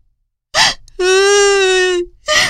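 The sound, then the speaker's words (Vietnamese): A girl, Masha, bursts into tears while lost: a short choked sob, then a long steady high wail that tails off, followed by another sobbing burst. “Ma Sa sợ hãi, òa khóc nức nở.”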